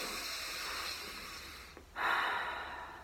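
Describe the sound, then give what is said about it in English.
Deep breathing, drawn in through the nose and let out through the mouth. A breathy rush swells after a short lull over a steady soft hiss. “And you take two deep breaths.”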